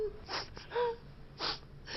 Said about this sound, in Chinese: 你别老哭啊，究竟怎么回事你倒是说呀。